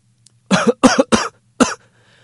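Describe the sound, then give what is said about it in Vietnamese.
A violent fit of dry coughing: four harsh, rasping coughs come in quick succession. The first three are close together, and the fourth follows after a brief pause, all loud and alone. “Bỗng nhiên một tràng tiếng ho khan vang lên dữ dội.”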